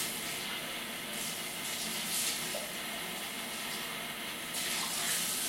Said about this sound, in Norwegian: Jeg må bare fylle opp litt vann.